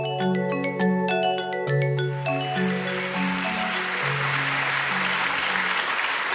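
Audience applause welcomes author David Mitchell at a live books event, the clapping swelling into a steady wash as a run of musical notes fades beneath it.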